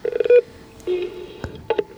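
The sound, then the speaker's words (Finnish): An intercom door buzzer is rung at a museum entrance, giving three short, steady electronic buzzing tones separated by brief pauses. “No niin, soitetaanpa summeria ja katsotaan, miten, kuka tulee hakemaan meitä täältä.”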